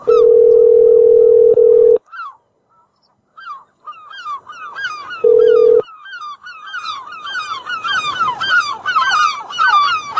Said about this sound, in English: I'm about to call a phone or mobile.